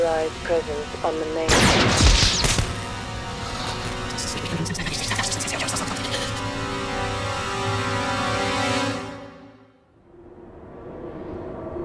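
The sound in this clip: Gunfire in a firefight comes as many sharp, rapid shots, densest in a loud burst early on, over a sustained tonal drone that dips and fades near the end.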